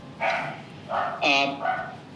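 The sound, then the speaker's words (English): A dog barks in the background, four short, bright, tonal barks at moderate level, unevenly spaced, with the middle two coming close together over a quiet backdrop. “excuse my dog in the background. No problem. My dog's right next to me, by the way, so it's all good.”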